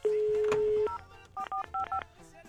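Telephone keypad dialing: a steady dial tone sounds first, then a quick run of several short, bright keypad beeps in uneven succession.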